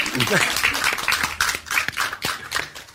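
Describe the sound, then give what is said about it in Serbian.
Applause from a studio audience greets an actor as he is introduced, a rapid spread of sharp, irregular claps at moderate level, with brief voices mixed in near the start. “Veliki aplauz za njega.”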